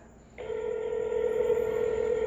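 Telephone tone heard while placing a call to someone: a steady, mid-pitched electronic tone starts abruptly and holds unbroken, fairly faint, with no voices.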